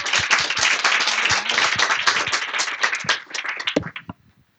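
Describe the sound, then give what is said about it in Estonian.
Audience applause for a speaker at an event presenting new civic initiatives, a dense burst of many hands that thins into a few scattered claps and stops just before the end. “teeme talle suure aplausi ka”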